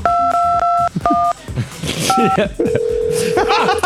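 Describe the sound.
Telephone keypad tones from number keys being pressed: a few short two-note electronic beeps separated by gaps, with people talking between them, followed by a long, steady single tone near the end.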